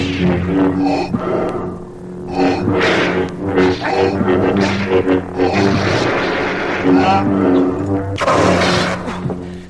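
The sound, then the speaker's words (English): Lightsaber duel effects from a Star Wars audio drama, with the Dark Lord of the Sith fighting Skywalker. Low humming drones swell and fade under repeated clashing bursts, and a loud, harsh crash comes near the end. “Lightsabers flashing, the adversaries close in a ferocious duel.”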